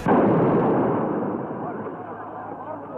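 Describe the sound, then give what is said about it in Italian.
A bomb explodes in a square in Brescia: one sudden, loud blast that rolls into a broad rumble and slowly fades over a few seconds. “La bomba, la bomba.”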